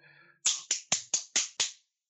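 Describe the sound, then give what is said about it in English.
Hands clapping into a microphone: six sharp, crisp claps in quick, even succession, preceded by a brief, faint voice. “Oh, I have the feeling that applauding is not agreed by the mic. Depends on how loudly you applaud.”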